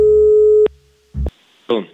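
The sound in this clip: A steady telephone line tone sounds alone as a call is placed, then cuts off. After a pause come two short bursts of other line noise.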